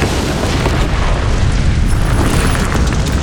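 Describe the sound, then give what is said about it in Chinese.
A huge explosion of magical energy shatters a massive stone gate, blasting apart its heavy lintel and square stone pillars: a loud, deep, sustained roaring rumble that fills the whole moment without letting up. “爆炸将大多数联盟士兵和许多剩余的兽人震倒在地。”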